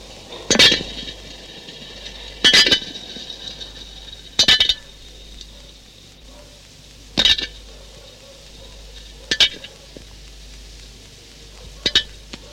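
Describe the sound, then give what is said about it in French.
A flea jumping on a metal lid: six light, sharp ticks spaced about two seconds apart over a faint steady background. “Nous trouvons une puce. Faisons-la sauter sur un couvercle métallique.”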